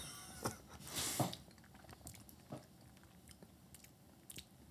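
Crunchy biting and chewing as a person eats while tasting food, a few sharp crunches, one longer and louder, separated by quieter chewing, with no talk.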